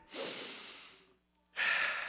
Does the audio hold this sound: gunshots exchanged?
no